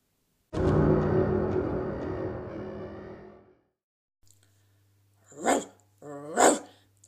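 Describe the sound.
A dog gives a long, harmonic, growling cry that slowly fades over about three seconds. After a short pause come two sharp, loud barks, one second apart.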